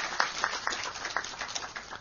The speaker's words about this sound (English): Thank you for your polite applause, but you need to do this.